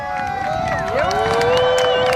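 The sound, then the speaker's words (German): Crowd cheering at an airport in Canberra as an arriving passenger steps off a plane: a loud, sustained roar of many voices with no pause across the whole stretch. “Und die beginnen wir mit diesem Jubel.”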